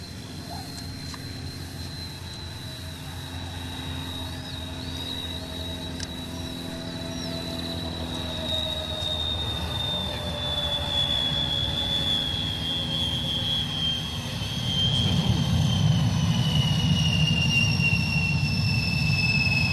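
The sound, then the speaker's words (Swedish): Vickers Viscount airliner landing: a high, steady turbine whine that slowly falls in pitch over a low engine drone, with a louder, rough low roar taking over in the last few seconds. “Vi ska nu lyssna till en landningssekvens med en Vickers Viscount.”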